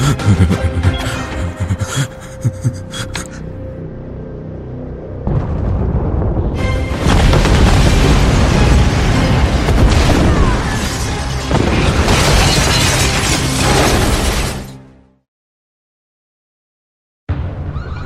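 An explosion set off with a detonator in an evacuated area, heard as a loud, sustained roar and rumble that swells and holds for several seconds, then drops abruptly into silence before another sound starts.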